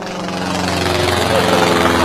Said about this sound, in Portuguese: Olha o teco-teco.